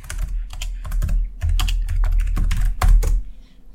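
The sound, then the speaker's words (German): Rapid, irregular clatter of many keystrokes as a search is typed into Google on a computer keyboard, the tapping loud and continuous with brief pauses. “Indem ich es einfach bei Google eingebe.”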